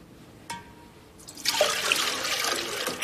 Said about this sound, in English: In the vegetation plot, the man grabs leaves out of a bowl of water.